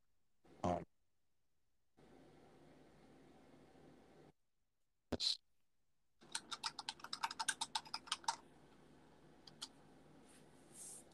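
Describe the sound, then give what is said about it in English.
Fast typing on a computer keyboard: a rapid burst of many crisp key clicks in quick succession, with a couple of separate louder knocks before it. “I can hear your Computer. yeah, you type really fast, man.”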